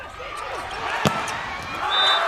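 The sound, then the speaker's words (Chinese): A single sharp smack of a volleyball serve in a match between China and Japan, one brief crisp hit standing out over steady crowd noise and a commentator's voice. “孟世坤的发球”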